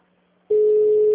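A telephone tone on a bank's line while a call is transferred: after a brief near-silence a single steady pitched tone starts abruptly and holds loud and unchanging.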